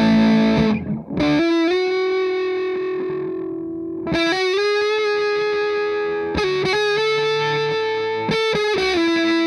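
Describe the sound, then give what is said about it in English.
Electric guitar played through a standard EHX Big Muff distortion pedal: thick, fuzzy sustained notes and chords, a few struck and left ringing in turn, loud and saturated with no talking. “let's switch over to the standard EHX Big Muff”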